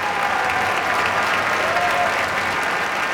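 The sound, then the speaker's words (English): Dense, enthusiastic applause fills the Koussevitzky Music Shed at Tanglewood after a Boston Symphony Orchestra concert. Thousands of overlapping claps form a continuous, even wash of sound that stays steady throughout. “Some very enthusiastic reception from this audience here in the Kuzovitsky Music Shed.”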